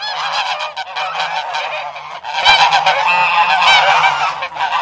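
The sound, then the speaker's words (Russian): A flock of geese honks loudly while being chased off with a switch; harsh, overlapping cries come in a dense, continuous burst that grows louder midway. “Возмущенные гуси с громкими криками скрылись за поворотом.”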